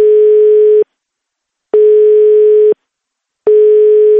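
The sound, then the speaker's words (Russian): A telephone line tone sounds while calling a city architecture office in Moscow. Three long, steady beeps at one constant pitch are each followed by a pause of equal length, loud and alone with no voices. “Набираем телефон прямой связи с жителями города. Может быть, другой компетентной организации скажут что-то. Звоню в Мосархитектуру.”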